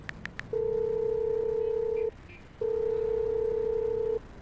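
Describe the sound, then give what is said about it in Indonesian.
A telephone call being dialed: three quick, high keypad beeps, then two long, steady ringing tones separated by a short pause. “Coba aku telepon ya.”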